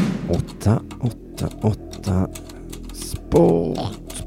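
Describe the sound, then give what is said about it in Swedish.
Fingers typing on a polished keyboard: sharp, irregular key clicks in quick bursts, mixed with short voiced sounds. “Med darrande fingrar slog Simonius Chypernicus in den avgörande formeln 888sport.se på det välputsade tangentbordet.”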